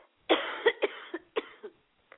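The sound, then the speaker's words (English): A tickling cough that has lingered for several days comes out as a series of short, raspy bursts, the first the strongest, with brief pauses between them and no talking. “I'm sorry, I've got this tickling cough for the last few days, and it always comes at the most inconvenient of times.”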